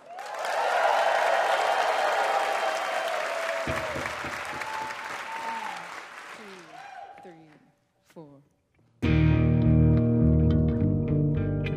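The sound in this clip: Audience applause for two performing musicians, a dense, sustained wash of clapping that slowly fades over several seconds, then a short lull before loud music starts.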